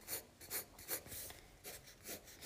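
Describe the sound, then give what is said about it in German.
Pencil or pen scratching on paper while someone draws a figure by hand, producing faint, rhythmic rasping strokes that come in a series of short bursts with brief pauses between them, heard alone. “Auf jeden Fall, ich zeichne diesen Typen jetzt nach.”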